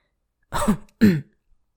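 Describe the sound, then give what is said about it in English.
A startled man gives two short, throaty coughs like throat clearing, separated by a brief pause, with silence before and after. “coughs, startled.”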